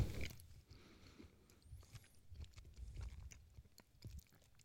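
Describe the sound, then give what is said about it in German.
Faint chewing of chocolate with biscuit: many soft, irregular crunches and wet mouth sounds in a loose rhythm, with no talk over them. “Ich esse immer noch die Schokolade mit Keks.”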